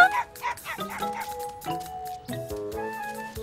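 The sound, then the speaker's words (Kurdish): A cartoon puppy gives a few short, high yips and barks, bright and fairly loud, with brief gaps between the bursts. “وەرە تووتکە.”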